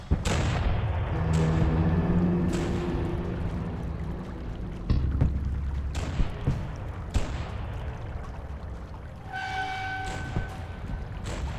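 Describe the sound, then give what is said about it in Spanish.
Artillery shells from cannons hidden among village buildings explode one after another near a huge armored war machine. Several heavy booming blasts come at uneven intervals over a rumbling background, with no voices. “Simultáneamente estallaron otras 2 granadas cerca del cuerpo y luego otra que no pudo esquivar.”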